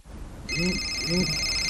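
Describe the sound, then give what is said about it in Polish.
A telephone rings with an incoming call from a medical clinic: a steady, high electronic ring tone starts abruptly and holds to the end. “O, telefon z przychodni.”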